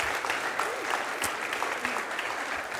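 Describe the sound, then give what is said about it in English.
Audience applause welcomes guests at a church service, a dense and steady patter of many hands clapping at an even level for the whole stretch. “Would you just give them a hand and welcome them?”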